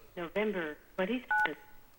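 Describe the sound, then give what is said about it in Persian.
A single short dual-tone telephone beep marks a phone line being opened. It sounds brief and steady, right after people talk. “استاد لطفا اون تلفن رو باز کنین که تلفن بازه.”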